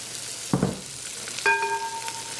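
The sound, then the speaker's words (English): Vermicelli goes into melted butter to roast with a faint sizzle, broken by a short clattering burst and then a brief ringing tone. “look at our butter has melted. We're going to go ahead and add our vermicelli in here.”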